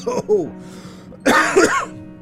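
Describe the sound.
Coughing and throat clearing from someone whose drink went down the wrong way: a couple of short, harsh coughs, then a louder spluttering bout of voiced, rasping coughs.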